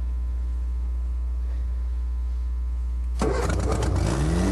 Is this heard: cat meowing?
no